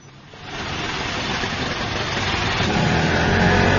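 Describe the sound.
Auto rickshaw engine running at night, a steady, rough motor drone that grows noticeably louder after a brief moment and then holds strong, swelling a little further toward the end, with no voices.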